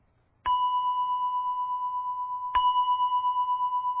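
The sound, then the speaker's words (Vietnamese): A temple bell is struck for sutra chanting. There are two strokes about two seconds apart, and each one rings on with a clear, steady, sustained tone. “Thí dụ vậy. À, chuông tụng kinh nè.”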